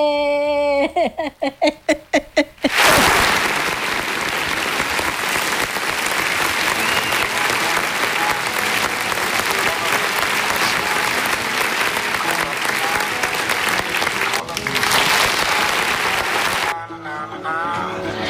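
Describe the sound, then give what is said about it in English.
Applause for a radio host on EBS Radio 95.7 FM bursts in after a brief spoken voice, then continues as a loud, dense, sustained clapping for about fourteen seconds before cutting away. “A round of applause for me, baby”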